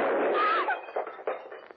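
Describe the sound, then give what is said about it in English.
A handgun fires a bullet by accident: one loud, sharp blast rings and fades over about half a second, followed by a few softer, uneven knocks. “Holy smoke. There was a bullet in that thing.”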